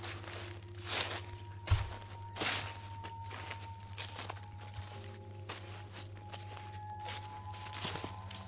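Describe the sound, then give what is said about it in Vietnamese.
Shuffling footsteps in a yard: a few irregular, soft scuffing steps over a steady low hum and faint sustained tones. “Ở ngoài sân, hình như có tiếng chân người đang đi lẹt xẹt, lẹt xẹt.”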